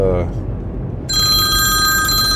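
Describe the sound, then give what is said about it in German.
A telephone ringing: a steady, high electronic ring starts about halfway through and continues to the end over a low background rumble. “Oh, jetzt ruft die Frau zwischendurch an.”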